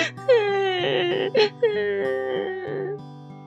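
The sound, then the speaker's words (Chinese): A girl cries alone after her mother's funeral, wailing, sobbing sounds rising and breaking into several long drawn-out cries, moderately loud throughout. “哦，亲爱的孩子，你怎么了？怎么一个人坐在这里哭呢？”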